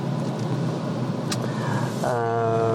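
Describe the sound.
Car driving along, with a steady low engine and road rumble inside the vehicle and a brief click partway through.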